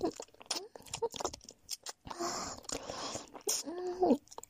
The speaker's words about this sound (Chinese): 那接下来试试 kiss 吧。